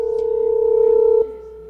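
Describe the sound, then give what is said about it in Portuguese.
A telephone dial tone plays as a call is placed again, a steady, loud, unbroken pitch that holds for about a second before abruptly dropping to a fainter level. “Vou ligar, peraí, vou ligar de novo aqui.”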